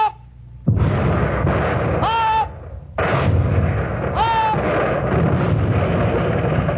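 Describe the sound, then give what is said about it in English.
Heavy warship guns firing shells at an enemy ship at sea, loading and firing every ten seconds: booming blasts with long rumbling roars, broken by brief lulls, one after another. “Every 10 seconds, the guns were ready and loaded, and every 10 seconds, the shells were hurled out of them.”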